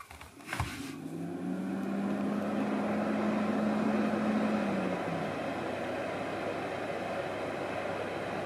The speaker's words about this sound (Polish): Farelka ustawiona na moc 1 kW. To urządzenie włączyło się przed chwilą. Dobra. Włączone. Odpalamy.